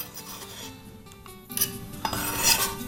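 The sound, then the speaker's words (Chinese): Knife slicing a small cucumber, giving a few sharp clicking strokes and a light scraping against a faint background of kitchen clatter. “好，来切个小黄瓜，这个到时候是清爽，摆清爽的。”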